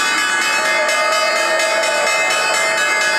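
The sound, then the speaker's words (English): The New York Stock Exchange opening bell rings loud and continuous, a harsh, steady metallic ringing that holds without pause for about three seconds. “So that's the sound of the New York Stock Exchange opening bell.”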